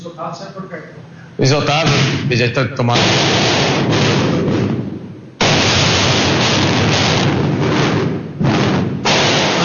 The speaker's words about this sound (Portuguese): Esse barulho que vocês estão ouvindo aí são os rojões que estão sendo soltos lá no meio. Tá difícil até ouvir, né? Porque é uma insatisfação da torcida.